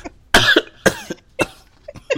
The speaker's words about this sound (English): You about to make me choke on my spit.